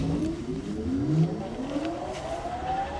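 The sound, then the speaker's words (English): Factory machine starting up on an empty factory floor, a continuous droning rumble with whining tones that climb gradually in pitch as it gets going. “I asked him to fire up a few of those machines just so I could hear them, and it brought a smile to his face. We're going to fire it up here.”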